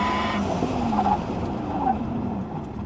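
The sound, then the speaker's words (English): A car pulls away hard from a start, heard from inside the cabin. A loud, continuous roar of motor and road noise carries a whining tone throughout. “so listen to it when it takes off. No, it'll show you more. You get to hear it from like inside the car.”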